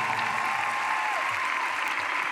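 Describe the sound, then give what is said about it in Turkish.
Applause from an audience of fans of musicians, a dense, steady wash of clapping that stays at an even loudness from start to finish with no break. “Şöyle kocaman bir alkış alabilir miyim dostlar?”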